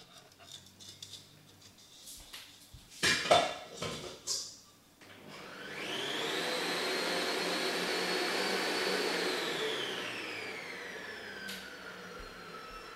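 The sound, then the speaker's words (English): A stand mixer runs at medium speed, whipping a mixture: a few clattering knocks of handling come first, then a steady whirring motor hum continues to the end. “Okay, I'm gonna put this in a stand mixer.”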